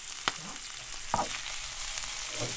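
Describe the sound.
Food sizzling gently in a pan over low heat, with lemon in the pan: a soft, steady frying hiss broken by a few light clicks of stirring.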